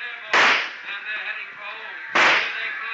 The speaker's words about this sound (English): I've been counting your shots.